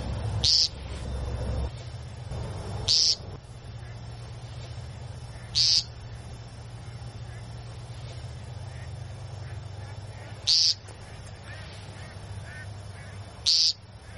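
Loud nasal peep calls from a courting male bird, five short buzzy notes spaced irregularly over a steady low background hum, with long quiet gaps between them.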